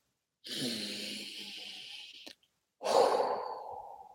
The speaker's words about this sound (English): I just took a deep breath just in case you didn't hear me well.